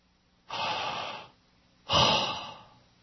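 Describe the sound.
A person voices the divine name without vowels as pure breath: two long, breathy exhales, the second slightly stronger, with no spoken words and silence in between.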